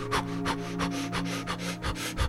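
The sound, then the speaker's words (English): Intense breathing during a guided meditation: many quick, forceful breaths in a steady rhythm over a sustained, tonal music drone. “Let's intensify our breath now.”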